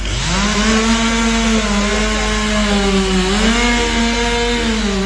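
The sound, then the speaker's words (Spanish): A chainsaw drones loudly and continuously as workers cut up the wood of a large fallen tree blocking the road, its engine pitch dipping and rising slightly as the blade bites. “A árbore que caeu é dun tamaño importante, tanto que ocupaba toda a estrada, o ancho da estrada. Os operarios, dicía, continúan traballando cortando a leña.”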